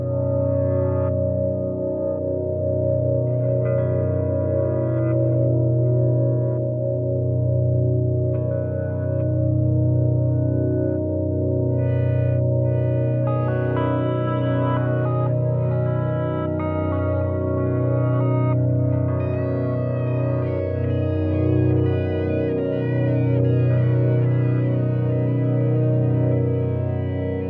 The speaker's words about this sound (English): music drifts in, and it's just this dark, droning, and really beautiful wash of sounds.